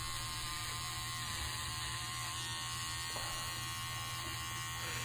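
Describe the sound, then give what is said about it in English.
Electric razor buzzing without a break as it shaves a man in video footage, a continuous, even mechanical drone topped by a bright, thin whine, holding the same level throughout with no voices. “So it's, I mean, it really looks like he's shaving him off there, but it doesn't. Damn, he just looked like the razor right through, like, the piercing, too.”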